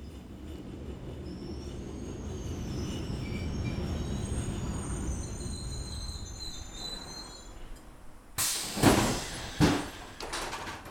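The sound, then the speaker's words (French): A train arriving at a station, a steady low rumble with faint high wheel squeals above it, then a few louder sharp clattering bursts near the end. “Attention, attention, nous arrivons en gare”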